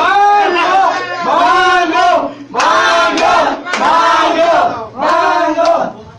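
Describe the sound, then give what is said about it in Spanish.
A studio audience cheers and chants during a televised show with a clown: loud massed voices shouting in about five repeated bursts, each rising and breaking off in turn. “El público la aclama, el público la aclama.”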